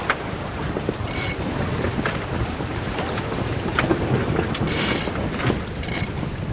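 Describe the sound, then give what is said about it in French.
Wind and water rush past a sailboat under way close-hauled while the crew change the headsail and haul on lines, a steady noisy wash broken by a few short, bright rasping bursts from the gear. “là on va se mettre au près et je vais changer la voile d'avant.”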